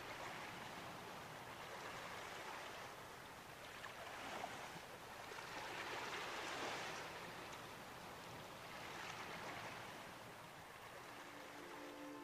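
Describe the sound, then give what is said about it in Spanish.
Ocean waves wash onto a beach, heard quietly as broad, hissing surf that swells and recedes in a few slow surges, with no voices. “Permanece unos segundos sobrevolando la playa y escuchando el armonioso sonido relajante de las olas.”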